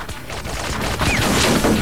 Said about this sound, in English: The railway car is riddled with bullets, and they dive for cover.